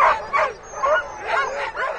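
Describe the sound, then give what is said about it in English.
A chorus of dogs yipping and barking at a sled-dog race gathering at a central Wisconsin country club, with many overlapping high, excited barks and yelps that rise and fall in a loud, continuous clamor. “the peace and quiet of this central Wisconsin country club is shattered by the barking and baying of hundreds of dogs.”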